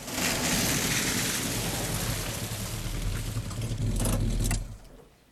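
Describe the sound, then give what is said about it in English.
A car drives along a rain-soaked street with a steady low engine hum and broad hiss of wet tires, before the noise drops away abruptly near the end as the car parks. “Later that night, Dennis drives Arnie home along a rain-soaked street. They park outside the house and sit in silence.”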